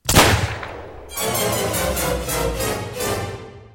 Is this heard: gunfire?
yes